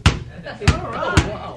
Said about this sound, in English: Now practice shooting baskets with the other hand.